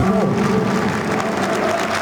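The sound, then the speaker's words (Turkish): Steady applause from a football stadium crowd after a match involving Antalyaspor, a dense, continuous wash of clapping and crowd noise with a faint tonal hum running beneath it. “Alkışlar Fraport'a, Antalya Spor'a.”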